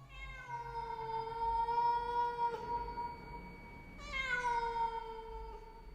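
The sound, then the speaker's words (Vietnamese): A pet cat meows twice, each cry long and drawn out with a clear tone, the second starting slightly higher and sliding down, over a faint low hum. “Thì ra là con mèo thằng Cú Tuấn nuôi, nó nằm ở ngay đấy.”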